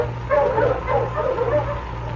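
Sled huskies bark and yip, a few overlapping yelps over a low steady hum.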